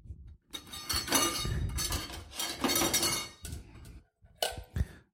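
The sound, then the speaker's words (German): Chopped meat is tipped into a bowl with a few bursts of clinking and scraping against the dish, then short knocks near the end. The sounds are moderately loud and irregular, with no talk. “jetzt habe ich mein Fleisch klein geschnitten und Gebe das, oh Wunder, in eine Schüssel.”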